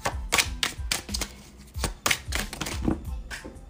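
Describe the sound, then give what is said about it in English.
Oracle cards handled and shuffled from a deck, a rapid run of crisp flicking slaps and papery riffles with uneven rhythm. “I'm gonna pull from this other deck. It's calling my name.”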